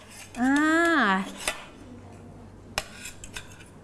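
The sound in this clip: Children handle spoons at a meal, making a few faint metallic clinks. A child's voice briefly rises and falls in pitch near the start.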